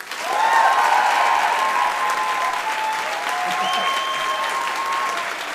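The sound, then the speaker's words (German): An audience applauds a contestant with sustained, even clapping that swells quickly and carries on steadily, while voices and high whooping cheers ride over it. “Euer Applaus für Dominik!”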